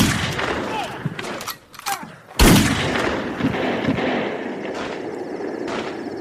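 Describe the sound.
One loud, sharp gunshot in a radio drama, with urgent shouting voices before and after it.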